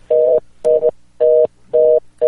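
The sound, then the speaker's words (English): A telephone line tone after a dropped connection, pulsing as short, loud, steady beeps in a quick even rhythm, four full pulses and a fifth that is cut off, with nothing else around them. “That's not my phone. I think we lost Terry on that connection there.”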